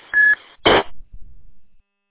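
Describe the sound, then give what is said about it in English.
Electronic beep from a TID CDH3+ radio: a short steady tone, then a harsher buzzy burst, followed by faint crackling before it cuts to silence. “I was just giving you a call back to see if I was able to resolve that beep issue.”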